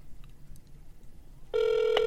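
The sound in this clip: A telephone call is being dialed, and the phone tone comes through: after a quiet stretch, a steady electronic tone starts partway through and holds unbroken to the end.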